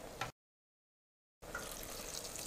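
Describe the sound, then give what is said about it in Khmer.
Water being poured into a cooking pot: a brief rush of splashing, a gap of silence, then a steady, fairly faint pouring hiss that runs to the end. “ហើយយើងដាក់ទឹកល្មមដែលយើងចូលចិត្ត”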